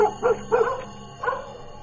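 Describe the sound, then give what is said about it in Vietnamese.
A trained dog barks in broken, choked-sounding bursts on a rainy night, giving a few short, muffled woofs separated by brief pauses. “Con chó cứ sủa lên ầm ầm, nó cứ sủa từng đoạn dứt quãng, rồi âm thanh cứ như tắc nghẹn ở trong cổ họng.”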